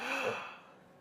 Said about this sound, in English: Take a deep breath, please, just once.